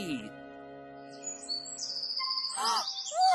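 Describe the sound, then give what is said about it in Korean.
A bird chirps in quick, high-pitched tweets and trills, with short bursts of calls building toward the end and brief voice-like sounds alongside. “우와, 새가 엄청 높은 데로 간다.”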